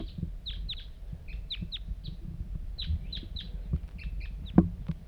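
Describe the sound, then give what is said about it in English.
A lone wild bird calls nearby in many short, high chirps that come in irregular little bursts. The chirps are fairly faint over a low background rumble. “pointed at the wild bird. Here it comes. One lone bird.”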